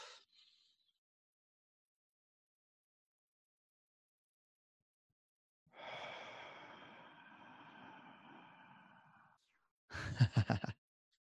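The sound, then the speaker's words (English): A long, drawn-out voiced exhale during a slow deep-breathing exercise, lasting several seconds like a heavy sigh, then a brief choppy breath near the end, with quiet around it. “take three five seconds in, five seconds, hold it, and a five seconds out. Let's go.”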